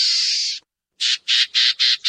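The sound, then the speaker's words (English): A black-tailed gnatcatcher gives a high, harsh buzzy call: one long rasping buzz, a short pause, then five quick, evenly spaced buzzy notes. “While the equally small black-tailed gnatcatcher puts it like this.”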